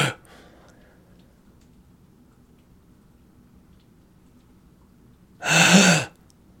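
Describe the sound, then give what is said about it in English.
A voice imitates the agonal breathing of a dying person with a single loud, harsh, breathy gasp that comes after a long stretch of near-silence. “He was breathing agonally. What's that mean? It's like they call it fish breathing when someone's dying, when you're like,”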